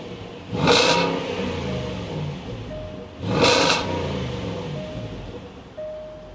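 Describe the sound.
A car engine, just started with a key fob, gurgles and burbles at idle and is revved twice in loud, swelling bursts before settling back to a steady rumble.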